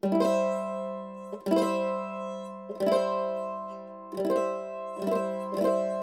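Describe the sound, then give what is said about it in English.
Guitar strummed across all strings while holding a fretted chord, including the third string at the second fret. Six bright strums each ring out before the next, leaving sustained, even tones between them. “So I'm going to hold that down, and I'm also going to hold down my third string, second fret, with my first finger. And I can strum all the strings, and it'll sound like this.”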